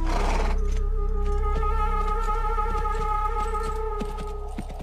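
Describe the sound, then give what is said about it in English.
A knight's horse neighs in a long, steady whinny while its hooves clip-clop in a regular trotting rhythm, with no talk. “Trit, trot, trit, trot, spur on Sir Lancelot. Trit, trot, Lancelot, trit, trot from Camelot.”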